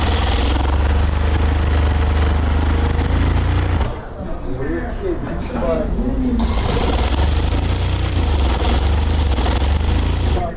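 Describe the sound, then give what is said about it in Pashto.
Sewing machines stitching pakol hats in a shop make a loud, continuous whirring mechanical drone that drops away briefly mid-clip while a voice speaks, then resumes steadily. “هر یو په خپل ماشین او کار سر ټیټ کړي او مخې ته پراته تاو شوي پکولونه ګنډي.”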